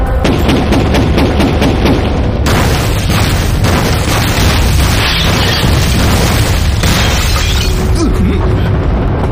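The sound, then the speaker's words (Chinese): Artillery shelling explosions make a dense, loud barrage of deep booms and bursts that follow one another throughout, with no clear pauses between the blasts. “不好，是炮击！”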